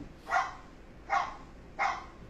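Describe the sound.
A dog barks three times, evenly spaced about a second apart. Each bark is a short, fairly loud burst with low background noise between.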